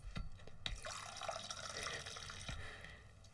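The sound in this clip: Grand cru wine from the region poured from a bottle into cups and crystal glasses: a quiet, steady liquid trickle that runs throughout, with a few small drip-like splashes.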